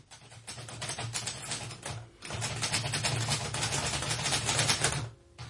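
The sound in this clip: A typewriter clacks rapidly as a report is typed: dense, continuous keystrokes broken by two short pauses, one near the middle and one just before the end.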